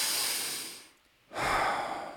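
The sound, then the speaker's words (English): A single deep breath: two long, hissing rushes of air separated by a short quiet pause, the second fuller and lower in tone, with no talking over it. “Take a deep breath.”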